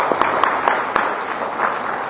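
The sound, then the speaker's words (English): A church audience applauds warmly to welcome people, a brief burst of steady, dense clapping with a few sharper claps standing out. “好，我们再用掌声热烈的欢迎你们。”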